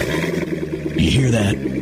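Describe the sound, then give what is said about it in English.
A Corvette sports car engine revs with a low, throaty growl that runs beneath a voice speaking over it throughout the short stretch. “That's the sound of America's only sports car. That's right, it's a Corvette.”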